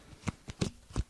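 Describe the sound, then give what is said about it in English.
Playing cards being shuffled by hand: a few short, crisp riffling bursts separated by brief pauses, with no talking. “That's the sound of cards being shuffled.”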